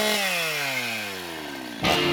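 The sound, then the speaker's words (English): A chainsaw engine winds down with a steadily falling pitch and a buzzing, harmonic-rich drone, then ends in a short, louder noisy burst. “Nobody has ever given me an audio chainsaw before.”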